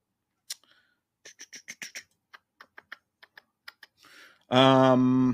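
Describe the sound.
Computer keyboard typing while entering a search: many separate, sharp key clicks in irregular bursts with short pauses, a soft rustle near the end, then a loud voice cutting in.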